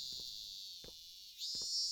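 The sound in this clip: Cicadas buzz on a summer day, making a faint, continuous, shrill drone that stays steady throughout, with a few soft low thuds beneath it.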